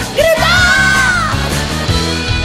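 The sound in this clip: A person yells in frustration over homework, one long drawn-out cry whose pitch climbs sharply at the start and then holds high and strained before trailing off, with lower tonal sounds continuing underneath.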